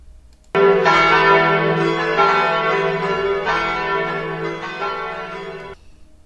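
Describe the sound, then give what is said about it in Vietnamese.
A church clock bell rings in the Notre-Dame cathedral tower at midnight. A few struck notes sound loud and blend into one sustained, rich metallic ring that ends abruptly. “Tiếng chuông nhà thờ làm cho lũ dơi giật mình bay tán loạn.”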